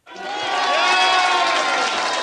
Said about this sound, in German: Jubel bei den bulgarischen Bürgerlichen in der Zentrale der Regierungspartei GERB in Sofia lässt sich Rossen Plevneliev feiern.